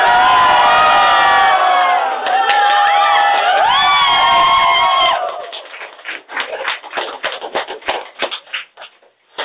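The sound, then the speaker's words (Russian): An audience shouts together in joy, a loud, sustained collective roar with whoops lasting about five seconds, then breaking into ragged, softer bursts of noise. “И напоследок мы с вами еще разок поорем, прежде чем выйти в гадкий мир. В этот раз от радости.”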